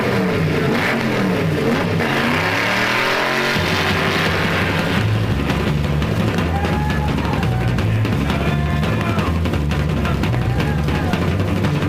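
A car engine revving. The loud engine note climbs over the first few seconds, then settles into a steady, droning roar that carries through to the end.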